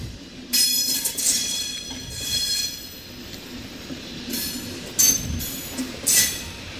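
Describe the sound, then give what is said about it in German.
An ICE high-speed train rolls through a railway depot with loud metallic wheel squeal and high whining tones over a steady rumble, swelling in several surges and two sharper bursts near the end. “dass durch das BW mittendurch der ICE fährt.”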